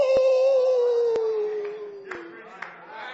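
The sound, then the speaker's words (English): A voice imitates a wolf howl during a sermon: one long, sustained tone that slowly drifts downward in pitch over about three seconds. “you'd hear that old wolf howl”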